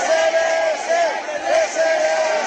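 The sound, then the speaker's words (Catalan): A crowd shouting cheers for newlyweds leaving a church after a wedding, a loud, sustained clamor of many voices with repeated calls rising and falling together. “Al final, els clàssics crits de visca els nuvis a la sortida de l'església”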